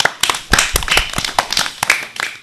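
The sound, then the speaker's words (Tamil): Applause for a speech: many sharp, quick claps rattle out irregularly and overlap, fairly loud throughout. “உங்களுக்கு எங்களது வாழ்த்துக்களை கரவொலி எழுப்பி தெரிவித்துக் கொள்கிறோம்.”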